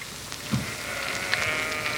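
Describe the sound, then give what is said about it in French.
Sheep in a flock bleating: a few wavering bleats, one of them high-pitched and drawn out, rise over a steady, noisy background. “And now the shepherd boy and his dog are going to take them up and introduce them to the flock.”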